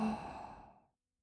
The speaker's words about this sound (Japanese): 吸って、吐いて、